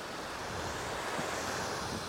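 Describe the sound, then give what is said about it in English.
Big ocean waves break on the shore after a storm, forming a steady, dense roar of surf mixed with wind noise, continuous and without pauses. “So once again, that ripple effect from the earthquake. That'll be interesting. Some of the waves are really big.”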